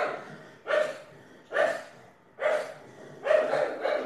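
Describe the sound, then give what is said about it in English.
A dog barks four times in evenly spaced, somewhat muffled barks, the last one a little longer than the rest. “That's the dog. I'm at work. I'll let him finish barking.”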